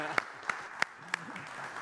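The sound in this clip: Audience applause greets a guest speaker at a morning gathering, a brief burst of clapping with a few loud, evenly spaced claps while a voice is heard underneath.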